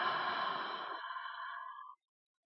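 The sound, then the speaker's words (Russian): One deep exhale during a breathing meditation: a long, breathy sigh that holds steady for about two seconds, then stops abruptly and leaves silence. “Глубокий вдох. И глубокий выдох.”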